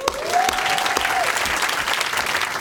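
A crowd applauds comedian Jess Fostekew after a stand-up set at a festival, with dense, even clapping and a single long whistle that rises early in the cheer.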